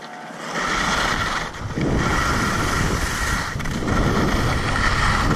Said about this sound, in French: Ambiance ski sur une piste rouge à Combloux en mars 2022, la Jorasse à 1757 mètres.